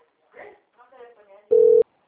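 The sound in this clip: A single short, steady electronic telephone tone sounds after a few moments of talk. It is a loud, flat beep lasting about a third of a second.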